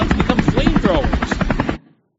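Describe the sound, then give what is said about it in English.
A helicopter's rotor beats in a rapid, even thumping pulse, loud and steady, then cuts off abruptly into silence. “I'm going to turn off the chopper sound because you know what a chopper sounds like.”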